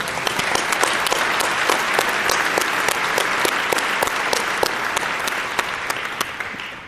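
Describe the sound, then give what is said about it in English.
Audience applause from a tech conference crowd, a dense, sustained clapping with sharp individual claps standing out, steady and loud before tapering slightly near the end. “So please give a big round of applause to Jetzik.”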